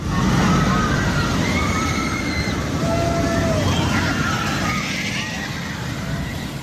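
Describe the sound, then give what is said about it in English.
A roller coaster ride at the Ekka show gives off a continuous rushing roar and rumble that fills the whole stretch, with crowd babble mixed underneath and a slight easing toward the end. “That is a roller coaster, I'm told. It's one of those things when you go and watch the roller coaster at Ekka.”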